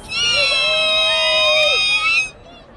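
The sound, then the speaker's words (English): Sorority members at a centennial celebration in Washington, D.C. shout their high-pitched skee-wee call together in unison. The shrill, steady, piercing tone is held for about two seconds and then drops away at the end. “Come on, ladies. We got to give them a good ski-wee for NPR.”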